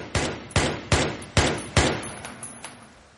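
Gunshots from an M16 rifle during a hostage standoff: five loud, sharp cracks in an even rhythm, followed by a few fainter shots.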